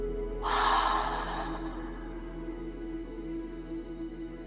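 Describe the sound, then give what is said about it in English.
A single deep, breathy inhale and exhale during a guided meditation breathing exercise: a soft, airy rush of breath that swells briefly and then fades into quiet. “Inhaling through the nose. And exhaling out the mouth.”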